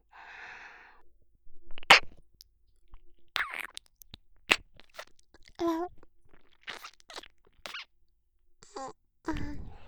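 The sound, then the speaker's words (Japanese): Wet licking and mouth sounds close to an ear come as a series of irregular smacks, slurps and clicks separated by short silences, with a few soft vocal sounds in between. “今度はこっちの耳を舐めてあげますね。”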